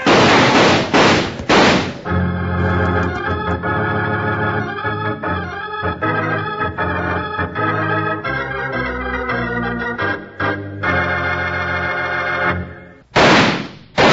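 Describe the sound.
Gunfire sound effects from an old-time radio western: sharp, noisy volleys burst at the start and again near the end. A longer stretch of tonal sound fills the space between them.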